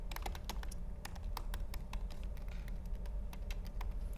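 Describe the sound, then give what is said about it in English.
Typing on a computer keyboard: a quick, steady run of many sharp clicks and taps over a low, constant hum. “One, the more annoying way would just be to type the whole thing out again.”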